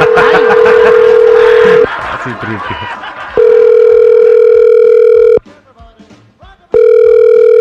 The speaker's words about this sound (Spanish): Vamos a marcarle a tu pareja